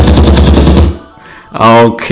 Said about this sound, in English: Can I get a gun salute?